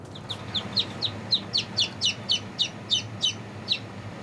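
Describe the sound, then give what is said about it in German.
Newly hatched chicks peep in a steady run of many high, thin cheeps, each sliding downward in pitch and repeating at a quick, fairly regular pace over faint background hum. “Auch frisch geschlüpfte Küken zählen mit. Moin, wollen wir euch mal zählen hier, ihr Kleinen.”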